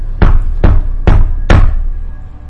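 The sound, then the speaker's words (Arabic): Four loud, heavy knocks strike a door at a steady, even pace, each with a short dull ring after it. “ولقيت الباب بيخبط عليا تاني.”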